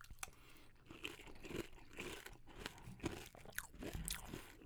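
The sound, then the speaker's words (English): Crunching and chewing of Raisin Bran cereal with almond milk: many dense, irregular crisp crunches in quick succession, fairly faint and with no talk. “I feel like with this cereal, with the Raisin Bran, there's a little more room for the almond milk to stand out”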